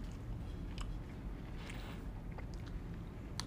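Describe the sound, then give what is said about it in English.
Faint, close chewing of a chewy, gum-like Malarkey Snax snack, with moist squelches and a few sharper clicks over a low steady background. “Is it gum? I really can't tell. Because it's just chewy enough that I'm like, am I supposed to be eating this? I think it's gum.”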